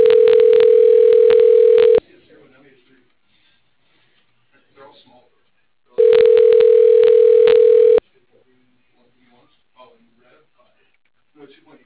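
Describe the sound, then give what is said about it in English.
Telephone line tone during a call transfer to voicemail: two steady, loud, mid-pitched tones of about two seconds each, spaced several seconds apart, with faint voices or murmurs in the quiet gaps. “if you want to patch me over to that voicemail, that would be much appreciated.”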